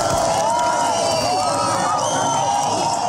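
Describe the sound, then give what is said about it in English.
A large crowd cheers and shouts in celebration at the breach of the Berlin Wall, a dense, steady roar of many voices with higher cries rising above it, loud and unbroken. “That was the sound of celebration almost exactly 30 years ago when the Berlin Wall in fact was breached and people began to be able to move freely back and forth between West and East Berlin.”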